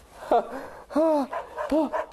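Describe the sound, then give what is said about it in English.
A dog gives three short, whining yips, each a high, bending cry with a quiet gap between them, heard alone and fairly loud. “Doggy! Wow! What's this? Whoa! You brought a towel! Wow, thanks, Doggy!”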